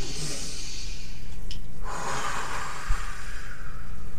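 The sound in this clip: Deep breathing from a group breathing together, long airy rushes of breath in and out, loud and steady with a brief snort-like puff near the end.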